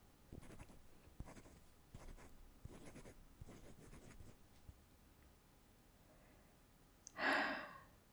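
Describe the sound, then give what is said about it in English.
Scratchy strokes of a calligrapher's pen or brush on paper, several short bursts over the first half, then a pause and one breathy sigh near the end. “It is an honor to see you write. Of course, I will not interfere and make noises.”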